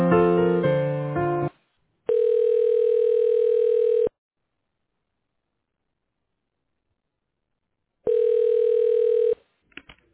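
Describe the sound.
A telephone line ringing as a call is transferred: a short burst of mixed electronic tones, then two long, steady, buzzing ring tones separated by about four seconds of silence.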